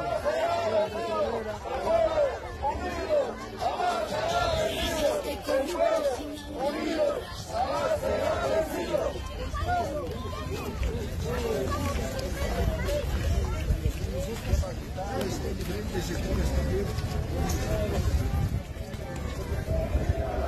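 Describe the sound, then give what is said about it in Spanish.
The crowd of the Gran Marcha por la Vida protest march makes a steady hubbub of chatter and raised voices, with many people talking and calling out at once. “Que el sector de Vilaque reciba esta gran marcha por la vida. Ellos también se encuentran en movilizaciones y la gran marcha por la vida se va aproximándose hasta este sector.”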